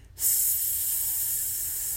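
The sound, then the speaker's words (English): A slow exhale through the mouth with the tongue resting behind the front teeth during a 4-7-8 breathing exercise. A steady, breathy hiss starts abruptly and holds evenly for nearly two seconds, alone. “We'll hold for seven, and then we'll breathe out through our mouth.”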